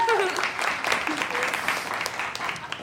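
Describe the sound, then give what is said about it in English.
Audience applause for a guest at a live show, a wash of clapping that stays fairly steady while people talk over it. “Give it up for Danielle, everybody.”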